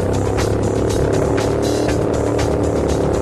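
A Ford Model T races on a dirt track. Its engine makes a loud, steady rumble that never drops out, with short bursts of noisier sound riding over it.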